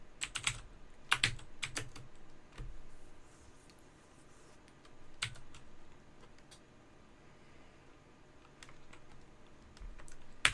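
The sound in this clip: Keyboard typing while writing: quiet, irregular bursts of crisp key clicks with short pauses between them, heard alone.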